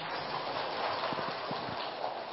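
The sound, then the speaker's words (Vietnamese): An audience applauds at a dharma talk for business people, producing a dense, even patter of clapping that holds steady and fairly soft throughout. “Quý vị cho một tràng pháo tay đi.”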